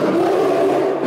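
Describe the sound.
A polar bear's roar: a single steady, loud growling call held for about a second, with a strong low tonal rumble and no pause or break.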